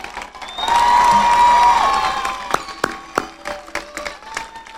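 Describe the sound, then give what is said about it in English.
Audience applause for college graduates at a Napa Valley College commencement, opening with a loud sustained cheer-like call over clapping, then thinning into scattered sharp individual claps. “Hey grads, turn and face the audience, give them a big hand for all the support they've done for you.”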